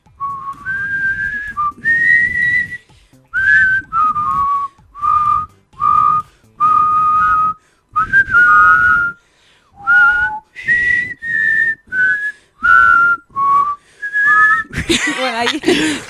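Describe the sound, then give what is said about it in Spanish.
People whistle a national anthem, a clear, loud melody of many short notes in phrases with brief pauses between them. The pitch steps up and down from note to note, and a short noisy burst comes at the very end. “Tenemos el himno silbado, hacemos.”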